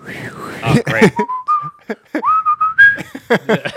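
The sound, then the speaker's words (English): A whistled melody in a bright, pure tone, gliding between sustained notes with short breaks, played over intermittent bursts of other sound. “Are they playing that whistling music the entire time? I'm going to play that every time you tell a story.”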